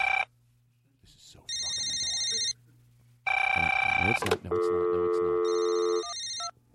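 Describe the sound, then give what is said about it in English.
Ringing tone of an outgoing call to a British phone: a few bursts of bright, buzzing electronic tone separated by short silent gaps, heard alone with no voices. “British phones have a different tone when you call them.”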